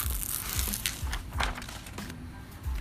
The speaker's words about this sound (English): Pulling grip tape is, once you get it on there, it is on.